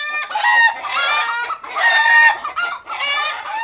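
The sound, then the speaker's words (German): Free-range chickens cluck in a steep lane of a cave village carved from volcanic tuff in East Azerbaijan, Iran. Three loud bursts of harmonic, cackling calls come with short pauses between them and no talking. “In den steilen Gässchen gackern freilaufende Hühner.”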